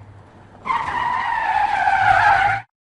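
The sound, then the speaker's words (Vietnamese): A car's tires screech in a skid, a steady, high, piercing squeal lasting about two seconds that cuts off abruptly, after a low rumble. No impact is heard. “Tôi loạng choạng rồi tông thẳng vào chiếc xe ấy.”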